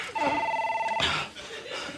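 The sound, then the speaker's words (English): A telephone rings with a steady electronic tone for under a second, then breaks off into brief voice sounds and noise. “Grab me the phone.”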